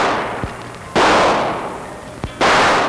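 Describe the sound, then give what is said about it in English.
Gunshots in a supermarket: two loud, sharp bangs, each with a broad decaying tail and each preceded by a faint click. “What was that? It sounded like shooting.”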